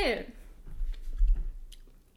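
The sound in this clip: Someone chews a mouthful of pasta coated in a sauce made from a mentaiko-flavoured corn puff snack, giving a brief run of a few soft, wet chews after a short vocal sound at the start.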